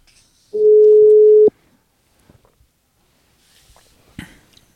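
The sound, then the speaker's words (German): An outgoing telephone call rings once: a single steady mid-pitched tone lasting about a second, followed by near silence with a few faint clicks and rustles. “Dann rufen wir ihn jetzt mal.”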